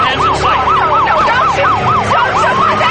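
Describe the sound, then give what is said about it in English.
Police squad car sirens wail in a loud, fast yelp, rising and falling in many quick, regular cycles over a steady background of vehicle noise. “As Kathy watches, she's quickly surrounded by squad cars.”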